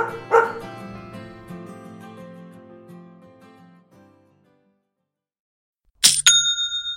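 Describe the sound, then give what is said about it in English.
A Shopify online store sale notification rings out as a bright, short chime with ringing tones, arriving after fading music and about two seconds of silence. “You know that's the sound of another sale on your online Shopify store, but did you know Shopify powers selling in person too?”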